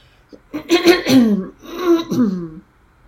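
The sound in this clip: A person clears their throat to bring up phlegm in two rough, voiced bursts with harsh rasping and hoarse tonal edges, loud and close, with no words spoken.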